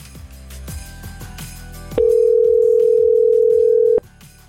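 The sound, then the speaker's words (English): A steady telephone tone, dialing a university's Christmas carol hotline. It holds at one even pitch for about two seconds over plucked musical notes that play before and after it. “Let's call them up. Let's speak to the University of Illinois and their Christmas hotline.”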